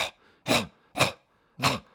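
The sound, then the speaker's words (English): A person imitates the dry cough of pigs in a barn, a cough that can end in a gag as they bring up mucus. Several short, harsh, throaty bursts come at a steady rhythm, separated by brief silences. “you get this kind of dry cough that can sometimes end with a bit of gag when they're bringing mucus up.”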